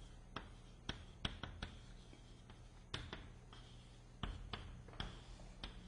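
Faint writing on a board during a physics lecture: a scattered series of sharp clicks and brief strokes at irregular intervals over a quiet, hushed background.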